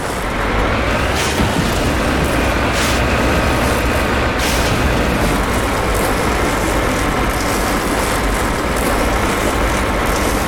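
Car engine roaring in a video game as the vehicle drives sideways up a hill, a loud, dense, continuous rumble with a few sharp bursts standing out.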